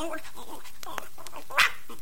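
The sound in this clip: A puppy yaps in a few short, high barks, with voices talking around them and one sharper, louder yelp near the end.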